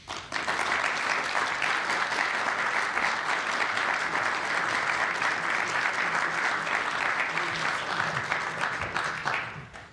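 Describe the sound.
An audience in Charlottesville applauds to welcome an author to a book talk, with loud, continuous clapping that holds steady throughout and drops away only at the very end.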